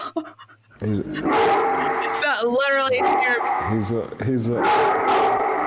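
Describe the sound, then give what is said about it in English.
A large 135-pound Argentine dog barks loudly, its deep barks mixed with drawn-out, wavering howl-like yelps in an uneven, continuous string. “That's my dog. That is a dog.”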